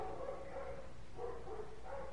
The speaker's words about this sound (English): The doggies know that I'm telling the story. They always come out during story time and start barking their heads off.